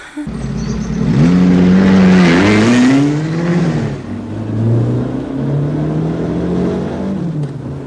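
A car engine accelerating as the car drives off: a loud rev climbs steadily in pitch, then drops and settles into a lower, steady engine drone that fades somewhat toward the end.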